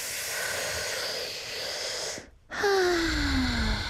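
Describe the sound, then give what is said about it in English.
A deep breath taken to de-stress: a long, airy inhale, a brief pause, then an audible exhale with a low voiced sigh that slides downward in pitch. “sometimes you have to breathe. Did you guys realize? We should do it right now.”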